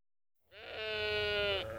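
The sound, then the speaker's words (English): A lamb bleats once in a single long, loud, quavering cry that holds steady for about a second before cutting off. It comes from a group of running lambs. “Oh, look at the lambs. Oh, yes. Why are they running?”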